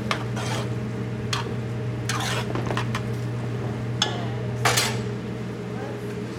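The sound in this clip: Utensil scraping and clinking in a pan as vegetables and garlic are stirred in butter: several sharp metallic taps and scrapes scattered over a steady low hum, with no clear talk.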